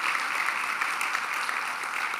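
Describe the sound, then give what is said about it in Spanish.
Church audience applauding: dense, steady clapping from many hands, even in level across the whole stretch, with no voices standing out. “Si tú estás de acuerdo, te animo a que puedas darle un aplauso a Dios por eso.”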